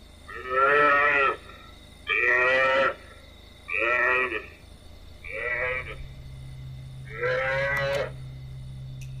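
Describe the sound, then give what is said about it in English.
Recorded calls of a buffalo calf played back from a CD at night: five moaning, moo-like bleats, each about a second long, spaced by short pauses, over a low steady hum. “He plays them a CD, which is music to their ears. The call of a buffalo calf.”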